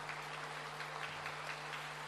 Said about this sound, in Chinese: 让我们以最热烈的掌声再次感恩大慈大悲的观世音菩萨，感恩大慈大悲的卢军宏台长。